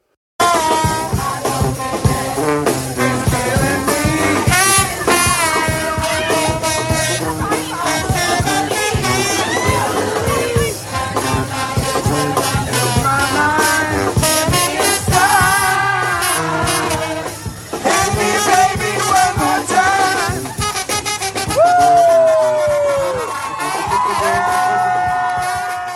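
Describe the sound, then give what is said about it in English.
A Pride celebration crowd fills Washington Square Park in New York City. Loud, steady music with sung or melodic tones dominates, and crowd noise mixes in throughout. “That's the sound of pride in Washington Square Park this weekend.”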